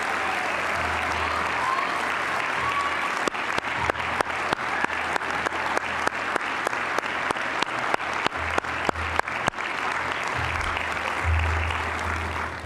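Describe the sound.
Sustained audience applause welcomes fifteen program graduates: steady, dense clapping with sharper individual claps standing out through the middle section, continuing at an even level.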